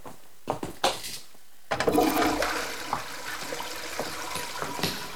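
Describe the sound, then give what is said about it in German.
A toilet flush washing rubble down in a prison cell: a few short clicks, then a sudden loud rush of water that keeps gurgling and churning steadily. “Hier, spül den Schutt runter und drück ein paar Mal die Spülung.”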